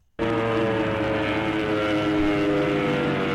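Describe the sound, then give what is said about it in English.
An airplane descending gives a loud, steady engine drone with a low humming undertone. It starts abruptly and holds an even, rumbling level throughout. “That's just a plane descending, but not crashing. It almost sounded like a helicopter.”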